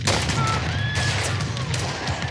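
Musket gunfire from attacking soldiers storming a hilltop held by Hessian troops in a Revolutionary War battle. Loud, overlapping shots merge into a continuous crackling fusillade with heavy booms and no pauses.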